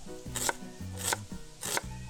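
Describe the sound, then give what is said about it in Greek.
A knife slicing an onion thinly, giving three crisp cuts at an even pace, quiet and set over a soft tonal background. “Λεπτές φέτες στο κρεμμύδι.”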